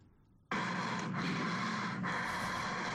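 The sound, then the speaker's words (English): Deep breaths sound effect: after a brief quiet moment, a loud, sustained rushing breath starts abruptly and holds steady for over two seconds, broken only by two short dips. “deep breaths. I have this in the sound effects. Let's compare.”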